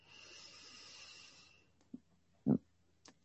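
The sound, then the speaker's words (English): A deep breath in during a guided relaxation exercise: a soft, airy hiss lasting about a second and a half, then a few faint short thumps and clicks. “Do it more like this. Just inhale.”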